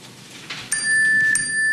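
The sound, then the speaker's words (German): A telephone message notification chime: two bright, bell-like strikes in quick succession, leaving a high, clear ringing tone that sustains to the end over a soft background hiss. “Was war das? Das war das Telefon. Bestimmt sind das die Infos, wo wir hin müssen.”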